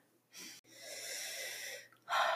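Deep airy breathing during a seated meditation with hands on the knees: a short intake, then a long drawn-out breath sustained for over a second, followed by another breath starting, soft and alone.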